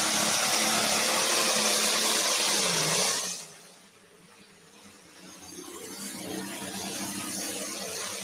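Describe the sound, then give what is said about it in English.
A pulling tractor's engine roars at full power during a Saturday-night tractor pull in Rock Valley, Iowa. The harsh, loud roar drops off abruptly partway through, then slowly builds again to a steady, strong drone. “Now this tractor got sixth this afternoon.”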